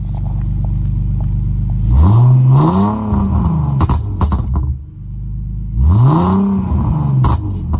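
A BMW 3 Series engine revs twice. Each rev is a loud sweep that rises and falls in pitch over a steady low idle rumble.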